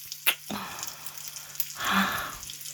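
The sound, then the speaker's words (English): Bacon sizzles in a frying pan, a soft crackling hiss broken by a few brief pops, swelling louder toward the end. “you gotta be careful. The bacon's gonna burn otherwise.”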